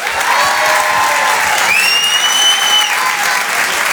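Loud, sustained applause from an audience greets a stand-up comedian at a comedy show, a thick, even roar of clapping that holds throughout.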